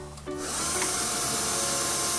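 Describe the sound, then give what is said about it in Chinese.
A power drill bores holes into the back of a wooden door, its loud, steady whirring motor starting after a short quiet moment and running continuously to the end. “我先喺呢个木门嘅背后咧，要钻咗四个窿仔，然后拧螺丝，咁固定佢个位”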